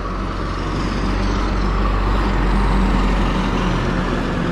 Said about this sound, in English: I'm here to exist while many vehicles pass by and do their thing.